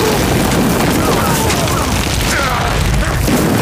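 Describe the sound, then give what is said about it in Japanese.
Artillery shells exploding on a battlefield make a loud, continuous roar of blasts that blur together into dense rumbling noise, with no clearly separate bangs. “砲兵に命令を伝えろ。敵を全て爆破させろ。”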